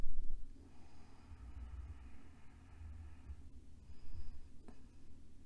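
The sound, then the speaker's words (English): A slow, deep breath is drawn in during a guided relaxation, a soft, airy inhalation lasting a few seconds, followed by quieter breathy sounds and a faint rumble. “just taking a deep breath in and allowing it enter back into the body now.”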